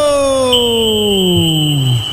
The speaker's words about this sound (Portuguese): o árbitro apita, o árbitro!